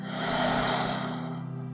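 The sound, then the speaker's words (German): A deep, long, breathy exhale through the mouth follows a held breath and fades softly over a steady low drone. “Und wenn du möchtest, dann atme einmal tief ein. Halte die Luft ein paar Sekunden an und atme dann durch den Mund wieder aus.”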